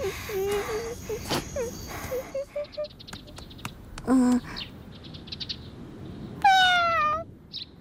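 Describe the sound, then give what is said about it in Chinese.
A cat meows several times, with short high cries early on, another brief call midway and a louder, longer meow near the end, over steady background noise. “猫猫，你是不是也饿了？你等着，我给你拿。”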